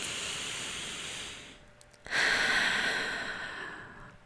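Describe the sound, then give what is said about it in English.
A deep breath drawn in and let out during a group relaxation exercise: soft, breathy hiss, then a brief pause, then a louder rush of air that slowly fades away. “And then one big breath together.”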